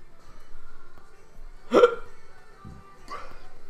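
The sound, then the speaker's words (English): Two hiccups, each a sudden gulping vocal catch. The first is louder and fuller than the second, and they are set apart by a second or so of near quiet. “Why do I always get the hiccups during commentary?”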